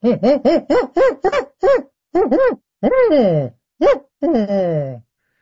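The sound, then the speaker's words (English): A person imitates the call of an agitated spotted owl. A rapid series of short, arching hooted barks comes first, then a few longer, louder calls that slide downward in pitch. It ends in a drawn-out descending wail. “impersonating a spotted owl”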